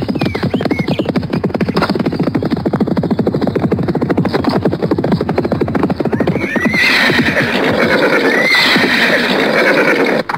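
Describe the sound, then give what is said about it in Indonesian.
Horses galloping as riders spur them on: fast, steady hoofbeats with loud neighing, and a shrill whinny partway through over the constant pounding. “Mereka berada di lima bagian sambil terus memacu kuda.”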